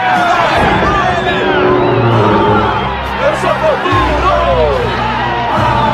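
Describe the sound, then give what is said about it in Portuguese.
An anime crowd roars and cheers as Team Toguro enters, a dense, loud wall of excited shouting and whoops that holds steady throughout, with individual voices rising out of the babble. “Em pleno clima de euforia, o público recebe o time Toguro. A torcida inteira vibra com a entrada do time.”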